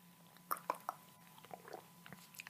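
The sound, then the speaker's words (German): Someone takes a sip of a 4Bro Coco Schoko drink, heard as a few quiet, wet mouth clicks and smacks over a low hum, with no speech. “Muss einen Schluck nehmen, damit wirklich auch meine Stimme gut geölt ist und ich wunderbare Sachen erzählen kann.”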